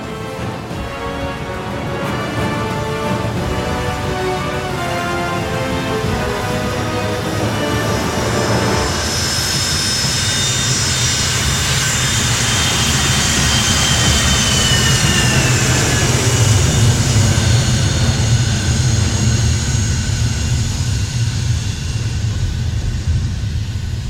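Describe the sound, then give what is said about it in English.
A jet airplane takes off: a steady, heavy engine roar with a high whine that enters midway and swells gradually louder toward the end. No voices are heard. “you're cleared for takeoff.”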